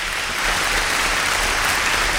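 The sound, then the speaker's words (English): Sustained audience applause fills the whole moment, a dense, steady wash of many hands clapping at even loudness, with no voices standing out. “She said you can have a little bit of applause. So that's it. That's all the applause you can have.”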